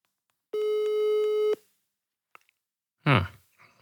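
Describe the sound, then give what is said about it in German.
A telephone call tone on the line: one steady electronic beep lasting about a second, then a pause and a brief burst of speech near the end. “Also ich mache sie einfach mal an, warte, ich rufe den jetzt mal an.”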